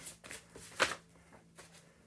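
Tarot cards are shuffled and drawn: a few soft, papery flicks and riffles, faint and uneven, with no voices.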